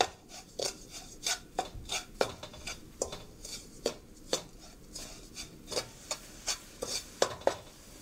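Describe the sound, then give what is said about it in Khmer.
A spoon stirs sugar so it dissolves, making many light scraping clicks and taps in an irregular, fairly quick rhythm. The sound is faint and heard alone, with no talking. “កូរវាយើងកូរស្កររបស់យើងឲ្យវារលាយបន្តិច”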